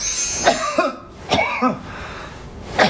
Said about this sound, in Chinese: 这是听声音哈， 听声音，这是咳嗽的声音，它会有特色。